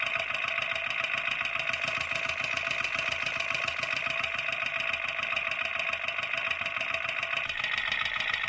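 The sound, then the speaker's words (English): A car engine idling with rattling valves, picked up by a contact mic pressed against the exhaust: a dense, rapid, steady clatter much like a sewing machine, unchanging and loud throughout. “It's noisy. It sounds like a sewing machine. It's like a rattle. The valves going up and down.”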